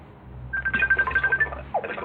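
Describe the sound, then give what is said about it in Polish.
An incoming call ringing on a messaging app on a phone, a bright electronic tone pulsing in a rapid, even rhythm over a faint background, with a brief extra tone near the end. “Ktoś mi jeszcze dzwoni na Messengerze, ale to tam zaraz oddzwonię.”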